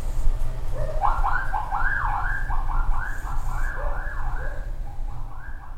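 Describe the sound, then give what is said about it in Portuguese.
A motorcycle passing with its siren beeping: repeated warbling electronic tones that rise and fall in a quick pattern over a continuous low engine and traffic rumble. “deixa eu passar o cara com a moto aqui apitando, pera aí.”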